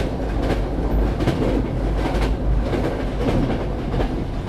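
A passenger train on the Scotland-to-London line runs along the rails: a loud, steady low rumble with a rhythmic clickety-clack of wheels over track joints.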